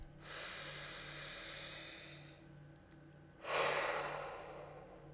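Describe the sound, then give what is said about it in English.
A slow, deep breath taken with eyes closed: a long, steady airy inhale, a short pause, then a louder, rushing exhale that gradually fades, all without speech. “Close your eyes and take a deep breath.”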